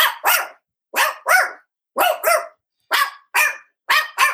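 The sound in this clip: A human voice imitates a dog barking, giving five quick pairs of sharp, mid-pitched barks, ten in all, each pair separated by brief silence.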